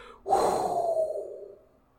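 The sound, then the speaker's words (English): A person lets out a single loud, breathy gasp-like exhale after chugging Flaming Hot Mountain Dew soda. The rush of breath starts suddenly and fades away over about a second. “I love how he did the Badland Chugs exhale.”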